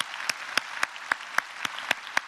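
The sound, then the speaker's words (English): An audience applauds to welcome everyone at a gathering. A continuous wash of clapping is punctuated by sharp, evenly spaced claps in a steady rhythm. “Let's put our hands together. Let's welcome everybody together here today.”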